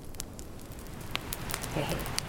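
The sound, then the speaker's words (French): Rain and a crackling campfire, built in a tipi shape, burn in front of a tipi: a steady broad hiss of rain with scattered sharp pops and snaps from the fire. “Comme avec Guillaume l'autre fois, il y a de la pluie et il y a le feu juste devant nous.”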